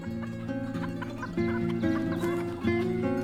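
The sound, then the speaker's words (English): A brown hen clucks on a window ledge outside a window, giving a few steady, moderately quiet clucks in a loose, repeating rhythm. “Morning, and outside Jonathan's curtainless window, a brown hen paces along the window ledge.”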